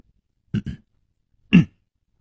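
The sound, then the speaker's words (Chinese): A voice imitates a dry cough as a man clears his throat: two quick, close throat bursts, a short pause, then one fuller, longer cough, all alone with no talk. “他干咳了一声说，”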